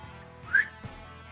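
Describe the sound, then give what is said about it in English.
A person gives one short whistle that rises in pitch. It is brief and fairly faint, with no talk. “I'm gonna go to Grandpa Nichols and whistle.”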